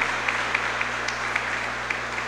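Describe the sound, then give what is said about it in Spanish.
Applause from a church audience after a candle-lit procession and prayer: a steady, dense patter of many clapping hands with a few sharper claps standing out, heard alone without talk. “Vamos a darle un aplauso al Señor de los Milagros.”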